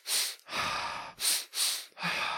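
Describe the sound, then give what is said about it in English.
Audible breathing as a person performs a double-inhale grounding breath: five loud, airy bursts of breath in quick succession, some short and sharp and others longer and fuller, with no talking. “the second step is the grounding breath, the double inhale.”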